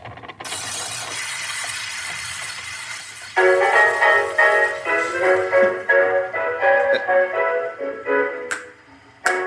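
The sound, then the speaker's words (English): A record plays on a hand-cranked Victor Talking Machine 5 phonograph. Steady needle hiss and crackle come first, then tinny, bright music with held tones plays on over the surface noise. “This is a Victor Talking Machine 5. Like this? Yep. So we undo this brake. And we put down the needle.”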